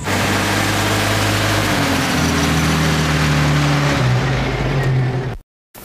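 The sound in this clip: A car engine drones loudly and steadily as the car drives off, its tone stepping upward as it pulls away, then cutting off abruptly.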